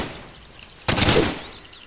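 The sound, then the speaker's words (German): Machine-gun fire from a video game rips out in one dense, loud burst lasting about half a second, with quieter game sounds before and after. “Oh, noch einer mit Maschinengewehr.”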